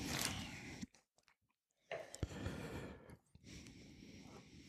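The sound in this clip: Chewing while tasting Polish mustard: moist, crunchy bites and mastication in close bursts, a short near-silent pause in the first half, then more steady chewing.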